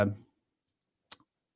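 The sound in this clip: A single crisp computer mouse click follows the brief tail of a voice, with silence before and after.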